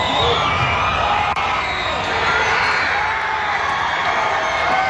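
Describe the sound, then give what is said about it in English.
Football fans roar as Canada takes a 1-0 lead against Qatar in a World Cup match. The loud, sustained wall of cheering carries whoops and shouts and stays intense from start to finish. “That sound you just heard, the roar of the crowd as Canada made it 1-0 against Qatar moments ago.”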